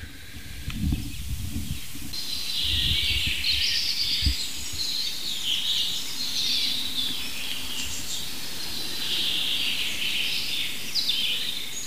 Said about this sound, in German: dem ersten Buchfink. Und wir werden uns mal von Fink zu Fink hangeln und gucken, was wir aus diesem Richtmikrofon rausholen können, technisch.